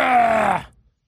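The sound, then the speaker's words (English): A voice imitates someone throwing up with a single loud, strained retching groan that holds for about half a second, then trails off into silence. “And that's the sound of me throwing up all over myself if I'm Grant Paulson.”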